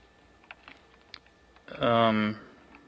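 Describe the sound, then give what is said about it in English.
Typing on a computer keyboard, letter keys and the return key: a few faint, scattered keystroke clicks, followed by a short burst of voice. “I am going to use the letter keys and the return key.”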